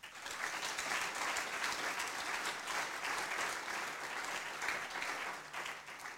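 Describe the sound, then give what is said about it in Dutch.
A studio audience applauds with steady, even clapping that holds at a constant level throughout, with no break. “Ik ben blij dat we het publiek mee hebben. Dan mag u extra hard applaudisseren.”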